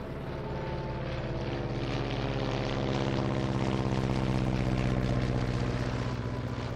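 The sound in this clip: Engine roar of a U-2 spy plane taking off, a loud, steady, heavy drone with a deep hum that builds slightly in strength and holds without a break.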